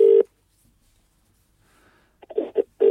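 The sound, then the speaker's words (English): Telephone ringing tone on a call to a mobile phone: steady, mid-pitched electronic tone bursts at the start and end, with a few shorter pulses just before the final tone and near-silence between them. “I love listening to his dialing tone.”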